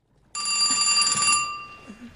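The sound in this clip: A telephone ringing: one loud, bright electronic ring bursts in suddenly, holds steady for about a second, then fades out with a lingering tail.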